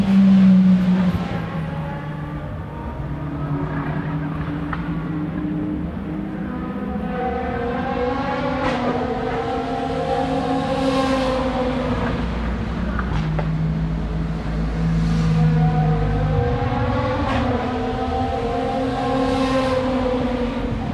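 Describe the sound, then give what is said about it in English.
Cars driving past on a street at night make a continuous, steady roar with engine tones swelling and fading as vehicles pass one after another. No voices are heard. “Here's the sound of the cars.”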